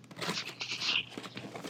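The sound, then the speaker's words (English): Plastic packaging is torn open with continuous crinkling and ripping, a rustling stream of crackles that swells briefly in the middle. “I'm gonna open it up here if I can. Okay. I'm gonna officially open it. It's gonna be part of my my thing here. Let's see. I hate opening up stuff, by the way.”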